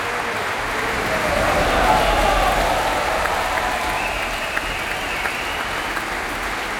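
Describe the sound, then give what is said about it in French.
Enthusiastic applause from a concert audience at an opera house as an orchestra takes its bows. Dense, steady clapping swells slightly early on, then holds evenly throughout. “l'Orchestre National de France qui saluent devant ce public très enthousiaste, vous l'entendez ici à l'Opéra Berlioz.”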